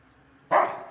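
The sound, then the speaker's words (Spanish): A dog barks behind a door: a faint, steady hum gives way to a loud, sharp bark that trails off, then a second bark that is cut short. “El perro continúa ladrando tras la puerta.”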